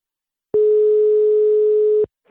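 A telephone dial tone sounds as a call is placed: one steady, loud, even-pitched tone lasting about a second and a half, then cutting off abruptly, followed by a short faint sound.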